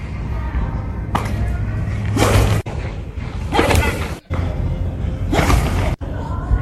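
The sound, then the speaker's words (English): A pitcher throws a baseball in the bullpen. There are three sharp swishing bursts, each ending in a hard thump, over a steady background hiss. “that is the sound of him throwing a baseball.”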